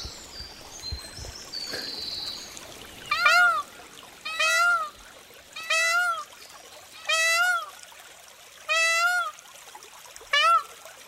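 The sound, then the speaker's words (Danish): A peacock calls in Liselund Park: six loud, wailing calls with a wavering pitch, spaced fairly evenly and alone over a quiet background. “ikke den der påfugl igen.”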